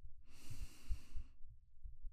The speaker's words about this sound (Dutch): Adem 3 tellen in door je neus.